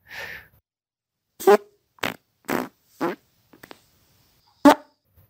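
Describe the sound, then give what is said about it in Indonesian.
A run of separate, short fart sounds, several loud blurts with silent gaps between them and a couple of faint small ones near the end. “Jadi dengerin aja suara kentutnya, ini dia.”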